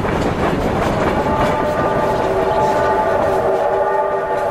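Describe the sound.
A train arriving at a station platform gives off a steady, loud rolling rumble with a sustained tonal hum layered on top, continuous throughout without clear breaks.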